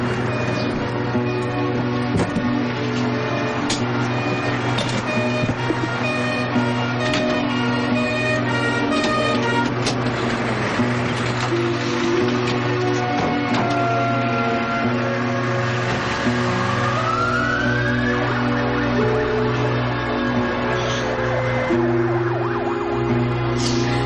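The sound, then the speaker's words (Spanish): An ambulance siren wails loud and continuous throughout, its tone holding steady over a dense layered backdrop, with one brief upward glide in pitch near the end. “Al poco, una ambulancia se lleva a Charlie en una camilla.”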